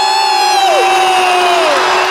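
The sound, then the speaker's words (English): Crowd cheering to welcome the All-Ireland champions Mayo onto a stage, a loud, sustained roar of shouts and whoops with piercing whistles sliding through it. “Would you please give a huge welcome to the All-Ireland champions? Please welcome Mayo!”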